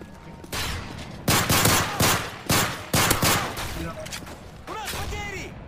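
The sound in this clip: Gunfire from enemy troops in a video game: several loud bursts of rapid shots come in quick succession, and a voice is heard toward the end.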